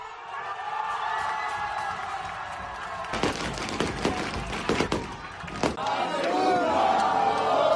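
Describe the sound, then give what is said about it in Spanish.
Football crowd at a match in Ibiza roars in celebration of a goal that clinches promotion; a steady loud din swells into shouting and cheering, with sharp percussive hits bursting through the middle before the roar builds again. “acabamos con el sonido de un equipo que ha ascendido. De la Peña Independent, con ese gol y el momento del ascenso del equipo de Mario Ormaechea.”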